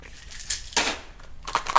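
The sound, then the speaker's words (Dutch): Foil packaging around multivitamin gummies crinkles as it is tugged from a dispenser, giving a few short, crackly bursts with quiet gaps between them. “Ik heb vitamine, multivitamine pinglings voor mijn kinderen. Die ga ik zo verdelen. Waarom is deze folie zo raar?”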